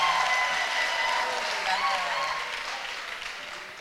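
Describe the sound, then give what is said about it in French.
Applause from a church audience praising the Lord, a dense, steady patter of many hands that slowly fades toward the end, with a voice faintly over it. “Let's clap for the Lord. Acclamons le Seigneur.”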